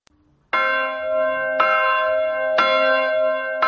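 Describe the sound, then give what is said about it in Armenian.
Armenian church bells toll in slow, heavy strikes about one second apart, each full metallic peal ringing on and overlapping the next, loud and steady with no voices. “Այսօր հայոց եկեղեցու զանգերը արահոտից ձայնում են աշխարհով մեկ։”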